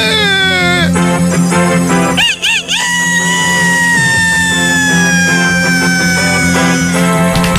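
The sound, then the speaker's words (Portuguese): A rooster crowing, loud and drawn-out, with a short wavering burst early on followed by a long harmonic tone that slowly sinks in pitch. “Olha! Ainda bateu umas asas, né? Esse galo aí parece que não bebe, rapaz.”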